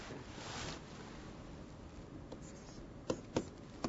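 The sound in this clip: Faint scratchy strokes of someone writing small letters on a US quarter coin, a steady soft rasp followed by a few sharp clicks near the end.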